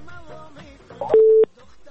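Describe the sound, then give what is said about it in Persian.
A telephone busy tone sounds after a call-in line is cut off: one short, steady mid-pitched beep follows a faint, muffled voice. “امی لحظه هم فکر میکنم که قطع شد.”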